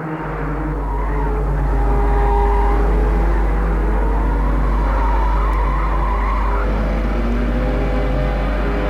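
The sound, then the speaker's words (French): Tires skid and screech as a car is driven fast and recklessly, with a loud, unbroken roar of engine and squealing rubber that holds steady for the whole clip and no talking. “Et ils continuent à rouler, à rouler, à continuer leur course folle, parce que Gilles conduit comme un fou.”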